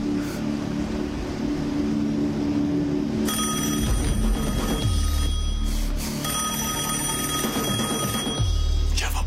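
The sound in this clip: A telephone bell rings in loud, repeated bursts with short breaks between them. It starts a few seconds in and plays over a steady low rumble.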